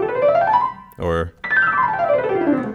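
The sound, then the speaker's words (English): A piano glissando slides across the white keys in one quick upward sweep. After a short spoken word, a longer downward sweep follows, both bright and moderately loud. “on the piano, it's you slide your fingers across the keys, either up or down, and it's usually just the white keys, so it sounds like this.”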